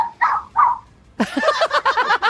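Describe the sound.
A pet dog barking in the background at home: two distinct barks, a brief pause, then a busier run of quick, sharp bursts.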